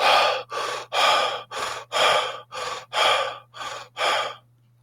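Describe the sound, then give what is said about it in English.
A voice imitates heavy breathing after lifting weights: nine loud, breathy gasps in a steady rhythm, each with a short pause, then quiet. “because I've been getting tired, like, after lifting, you know? And it's not good. Like, breathing heavy.”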